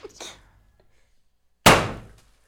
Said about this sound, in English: She's holding a party popper.